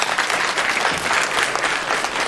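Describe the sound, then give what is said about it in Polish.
Audience applause at a gathering after a film screening: dense, steady clapping from many hands, loud and even from start to finish. “Ja bym prosiła jeszcze Państwa o jedną rzecz, o duże brawa też dla Radka Kuleszy”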